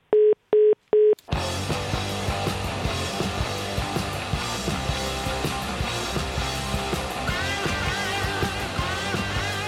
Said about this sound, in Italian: anche a me ha attaccato il telefono